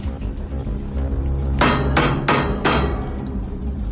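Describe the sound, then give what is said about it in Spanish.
Four hammer blows strike the metal wall of a submarine's escape hatch chamber: sharp, ringing metallic hits, evenly spaced over a steady low hum. “Coge el martillo, golpea la pared.”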